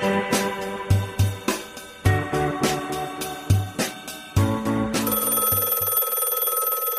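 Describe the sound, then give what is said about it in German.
A telephone rings in quick, bright, rhythmic bursts that repeat many times at a steady pace, then give way to a sustained higher ringing tone that fades out. “Die Vergangenheit ruft. Bei Unboxing bekommen wir immer einen Anruf”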